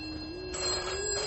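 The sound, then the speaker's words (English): A telephone rings with a steady electronic tone, a sustained high note over a faint low hum, with no talk. “Answer that bloody phone!”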